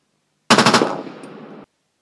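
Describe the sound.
A needle gun firing as a sci-fi weapon sound effect: a quick burst of several sharp, rapid shots that melts into a hissing tail and fades out, alone against silence.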